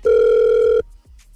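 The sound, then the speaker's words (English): A telephone ringback tone while a call is being placed: one steady, loud mid-pitched burst lasting under a second, followed by near silence. “hopefully Jimmy will answer the phone when we call him”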